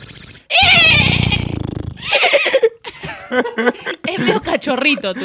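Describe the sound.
A person imitates a horse's neigh with a loud, quavering, high whinny that lasts about a second and a half. People talk right after it.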